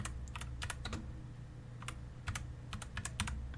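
Typing a prompt on a computer keyboard: many quick, crisp key clicks in uneven bursts over a low steady hum, with no talking.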